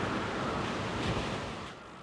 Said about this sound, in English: Hurricane Ian coming ashore as a Category 4 monster.